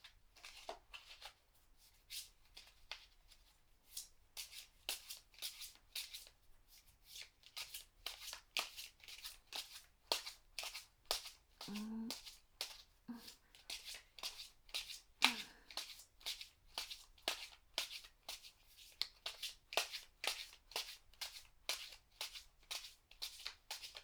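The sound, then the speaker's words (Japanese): A deck of tarot cards is shuffled in many rapid, crisp riffling strokes that repeat in a fairly steady rhythm throughout, soft but clear. “まずはタロットをシャッフルしてと。”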